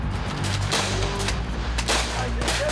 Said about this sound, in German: Und ich habe echt das Gefühl, ich bin hier mitten auf einem Schlachtfeld, trotz Platzpatronen.